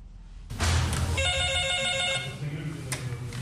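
A telephone rings at an emergency medical service in Quetta, a line taking calls about traffic accidents. A sudden noisy onset leads into one steady, bright electronic ring of layered tones lasting about a second, followed by quieter low rumble.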